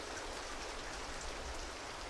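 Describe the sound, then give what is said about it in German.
Rain falls steadily, a dense and even hiss of drops that carries on without a break and with no voices. “Es regnet.”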